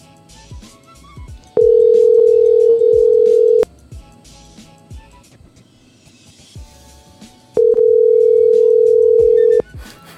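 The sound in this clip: A telephone ringback tone sounds while calling a cell phone: two steady, mid-pitched tones of about two seconds each, separated by a pause of several seconds, over faint background noise.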